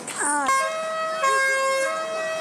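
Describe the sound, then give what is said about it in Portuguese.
An emergency siren with an oddly cheerful, tuneful tone opens with a quick rising sweep. It then settles into bright, steady, harmonic notes that stay loud and clear. “Eu nunca vi uma sirene tão alegre na minha vida, cara. Não combinou com o negócio. Parece que eles estão comemorando.”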